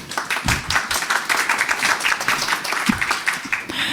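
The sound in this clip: Audience applause greets a speaker taking the stage for a talk on untraceable messaging, with distinct claps in an uneven, busy patter that thins and breaks off just before the end.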